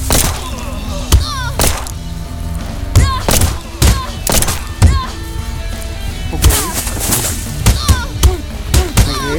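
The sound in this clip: Pistol shots in a video game: many sharp, loud cracks fired at irregular intervals over a busy game background, with a little talk.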